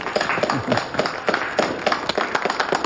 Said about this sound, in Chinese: 下面我来宣布，由六合堂的总管刘天秋担任兴化商会的会长，大家鼓掌啊！